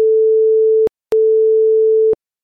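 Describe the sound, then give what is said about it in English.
Two steady electronic beeps at the same mid pitch, the first slightly shorter than the second, separated by a brief silent gap, with faint clicks at each start and stop. “You're about to hear two beeps followed by one beep.”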